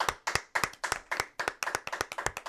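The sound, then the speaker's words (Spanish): Hand clapping for newlyweds at a wedding, many sharp, separate claps in a quick, slightly uneven rhythm, fairly faint and with no talk over them. “¡Fuerte el aplauso para los novios!”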